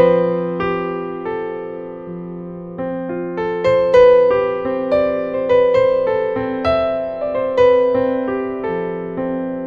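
Piano with the sustain pedal held down plays a hopeful melody in Lydian mode on F, with a fifth rubbing against a sharp fourth. Struck notes ring and blur into one another in a gentle, flowing line.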